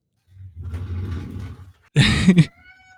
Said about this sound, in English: That is one of the weirdest fucking noises. That's the cat.